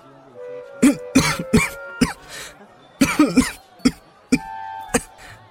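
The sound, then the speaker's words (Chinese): Sudden choking coughs from a man caught off guard: many sharp, harsh bursts in uneven clusters, some quick in succession and others spaced apart, over a low steady background. “汤范冷不防呛咳了几下”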